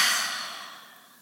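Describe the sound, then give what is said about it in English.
A deep breath is let out through the mouth in one long, airy, hissing exhale that starts fairly loud and fades steadily over about a second, with no other sound. “So let's take a big inhale through our nose and an exhale out your mouth.”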